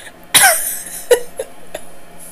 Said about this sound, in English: Are you okay? I'm fine. I just choked for a second.